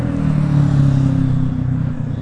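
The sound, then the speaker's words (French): A small motorcycle passes by with a steady low engine drone. The drone swells slightly, then eases off toward the end, and no voices are heard. “Petite moto qui passe, rigolo.”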